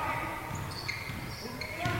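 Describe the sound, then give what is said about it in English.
A basketball dribbled with the left hand during a women's game, giving a few faint bounces beneath steady crowd noise and talking voices. “Dribbling with the left hand now.”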